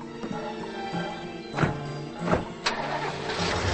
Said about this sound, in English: They get into their Volvo station wagon.